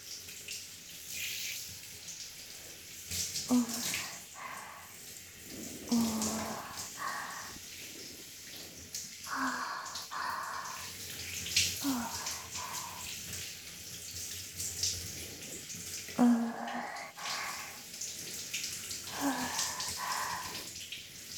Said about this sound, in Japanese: お湯の温度はこれくらいですね。お背中から流していきますよ。